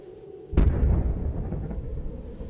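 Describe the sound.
An explosion hits with a sudden heavy boom, then leaves a deep, sustained rumble that slowly eases but stays loud to the end.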